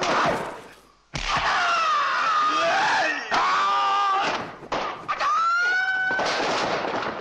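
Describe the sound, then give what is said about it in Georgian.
Bruce Lee's film character lets out battle cries during hand-to-hand combat: a few shrill, sustained, wavering yells separated by brief breaks, with sharp noisy bursts between them. “ეს საბრძოლო შეძახილი ერთ დროს მთელი მსოფლიოსთვის ნაცნობი ხმა იყო, რომელსაც ბრუსლის კინოგმირი ხელჩართული ბრძოლის დროს გამოსცემდა.”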